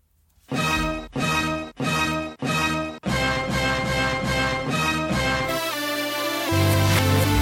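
Intro music played backwards: four reversed chords each swell up and cut off abruptly, followed by a continuous, denser stretch of reversed music with a deep bass note entering near the end.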